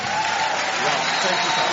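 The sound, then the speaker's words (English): Audience applause fills a formal event honouring a distinguished senator in Nigeria, with dense, steady clapping from many hands at an even, loud level throughout the brief moment. “Keep clapping as it comes, please. Keep clapping.”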